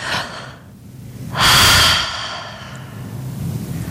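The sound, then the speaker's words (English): A single deep breath taken during a guided relaxation exercise: one loud, airy inhale lasting about half a second, with quiet background noise before and after it. “Take a deep breath.”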